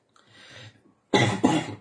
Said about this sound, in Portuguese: vocês me perdoem as interrupções aí com a tosse, viu?